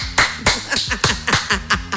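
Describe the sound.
Hand clapping for a woman being cheered on, a steady, rhythmic run of sharp claps spaced evenly and at a lively pace, fairly loud throughout.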